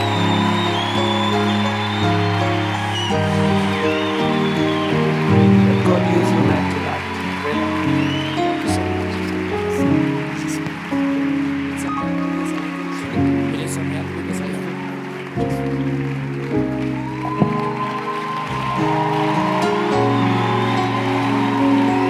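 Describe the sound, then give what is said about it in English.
Audience applause welcomes a speaker to the stage at a church event in Barcelona: dense, continuous clapping holds steady throughout, mixed with sustained musical tones and voices. “Let's put our hands together as we welcome him, Barcelona.”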